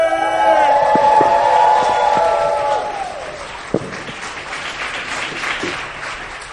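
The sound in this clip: Applause and cheering from the audience at a live show at Angel City Brewery greet a performer. A loud sustained voice opens, then clapping and cheers carry on to the end.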